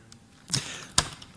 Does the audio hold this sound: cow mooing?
no